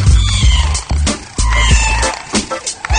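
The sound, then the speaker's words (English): A cat meows loudly and repeatedly, its harsh, strained cries running almost without break over a dense, noisy texture. “Even if you like cats, that sound is not pleasant.”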